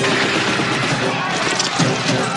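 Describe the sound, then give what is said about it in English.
Gunfire in a film scene set during chaos in El Salvador: a loud, dense, continuous barrage of shots with no clear gaps. “Whatever you do, okay, don't get on the ground. They're not just shooting the Indians. They're shooting at us.”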